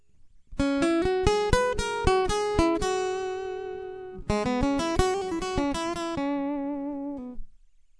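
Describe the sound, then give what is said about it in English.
Acoustic guitar heard through a direct piezo pickup on a Yamaha AG Stomp, playing two bright phrases of quick plucked notes, each ringing on before a short pause. “Now what you're going to listen to is the direct piezo sound versus a distant mic setting. So first is the piezo pickup.”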